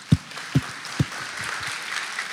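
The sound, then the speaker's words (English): Audience applause for legally married couples standing during a church service: three heavy low thumps come first, followed by softer, scattered clapping that continues at a moderate level. “Come on, give them a round of applause.”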